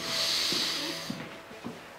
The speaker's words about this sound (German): Einatmen.